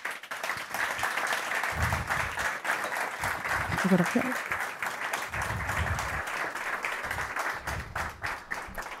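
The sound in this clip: Audience applause at an award ceremony as the prize goes to the director of Banegården, a venue that opened during the pandemic. Dense, steady clapping runs through the whole clip while voices speak over it.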